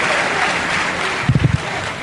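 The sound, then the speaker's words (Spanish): Audience applause, a dense, steady wash of clapping that holds at an even level, with a few low thumps rising near the end. “Gracias. Aplaudidme más.”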